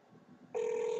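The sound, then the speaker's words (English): A telephone line rings after a number is dialed to a White House comment line: a quiet hiss gives way halfway through to a loud, steady, sustained ring tone that holds to the end. “Anyways, we're calling the White House. We just dialed the White House comment line.”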